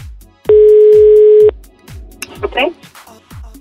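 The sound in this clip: A telephone line tone sounds while a call is placed again: one steady, clear beep lasting about a second, with soft low thumps and faint murmuring sounds after it.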